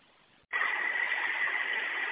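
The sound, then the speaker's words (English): A vehicle engine with check-engine and low-coolant warnings lit is restarted: near-quiet, then an abrupt onset of steady, loud, even rumbling noise that holds to the end. “go ahead and restart the vehicle, and let me know if you're still getting the same error.”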